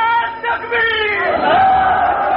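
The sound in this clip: A crowd at a religious sermon chanting a slogan in unison, loud massed voices holding long, drawn-out tones that bend in pitch over a couple of seconds.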